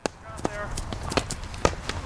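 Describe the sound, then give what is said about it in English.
Hurling players running a drill: sharp, irregular clacks and thuds of running feet and wooden hurleys, with voices heard in the background. “That's the sound of players running a drill, practicing the traditional Irish sport of hurling.”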